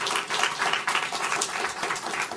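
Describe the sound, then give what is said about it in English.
An audience gives a round of applause to welcome guests, a dense, steady stretch of clapping from many people at an even level. “So let's give a round of applause to welcome our guests today.”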